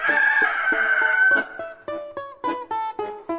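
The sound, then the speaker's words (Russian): A rooster gives a loud, drawn-out crow, followed by a run of short, clipped clucking notes in a quick, even rhythm. “Тотчас приросла петушиная голова обратно, и петух закукарекал.”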